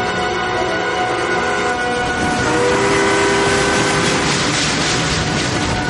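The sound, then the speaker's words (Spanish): A train running near a lake in a 2008 war drama film, with a continuous heavy rolling rumble. Sustained high whining tones ride over it and grow louder midway. “pensativa mira por la ventana del ferrocarril. El ferrocarril circula cerca de un lago.”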